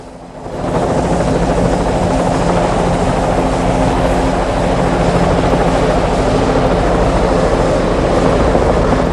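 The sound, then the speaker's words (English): A helicopter lands, its loud rotor and engine roar rising quickly at the start and then holding a dense, steady drone with a low throbbing beat to the end. “A helicopter lands.”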